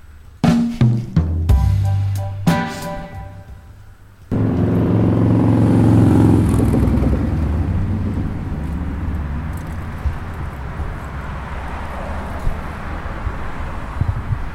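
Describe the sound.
A motorcycle engine revs in a few short bursts, then breaks into a loud, sustained roar as it rides on, a steady rumbling drone with no voices.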